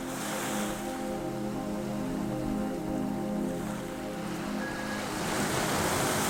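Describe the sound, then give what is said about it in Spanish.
Ocean waves break on the shore in a steady, continuous wash of surf, a full rushing roar that swells slightly toward the end, with some wind mixed in. “el suave sonido del oleaje”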